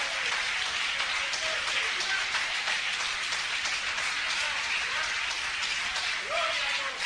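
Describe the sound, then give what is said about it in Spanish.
Applause from an audience during a church sermon, a dense, steady wash of many hands clapping that holds evenly throughout, with faint voices underneath. “Dale un aplauso al Señor, que Él se lo merece.”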